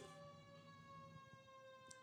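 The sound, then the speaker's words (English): A fire truck siren passing, heard as a faint, steady, buzzy tone held throughout without a clear rise or fall. “Is that a fire truck or an ambulance? I think it's a fire truck.”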